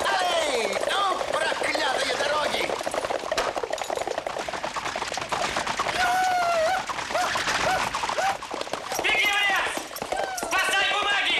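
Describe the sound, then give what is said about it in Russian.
Hooves clatter in a fast, steady clip-clop as horses are driven on, pulling a carriage, with excited shouting voices over the running hooves throughout. “Лошадей в карете подгоняют до Гринги”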